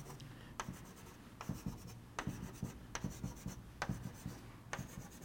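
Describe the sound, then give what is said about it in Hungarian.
A pen or marker drawing on a surface, sketching cross-sections of parallel fibres: many quick, light scratchy strokes in short irregular bursts, quiet and alone with no talk. “a szálaknak a metszetét erre a felületre rajzolom be.”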